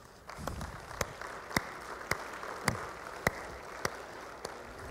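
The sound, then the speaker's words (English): Applause rises at a church service as a speaker is welcomed to the stage, a soft steady patter broken by a handful of sharp, louder individual claps spaced fairly evenly. “I want you to put your hands together”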